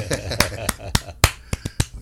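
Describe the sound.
Seven sharp hand claps from one person applauding alone after a live song, loud and evenly spaced with short gaps of silence between them.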